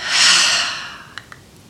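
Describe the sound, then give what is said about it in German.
A single deep, breathy exhalation during a guided relaxation exercise, a long soft rush of air that swells and then slowly fades. Two faint, brief clicks follow. “Und mal einmal gemeinsam mit mir ganz tief über die Nase einatmen. Über den Mund tief ausatmen.”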